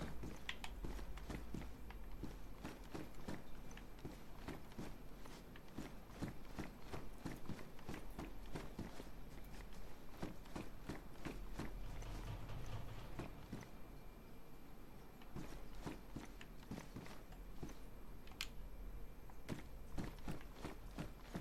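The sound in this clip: A video game character walks with many evenly paced, soft footsteps that run steadily and faintly throughout.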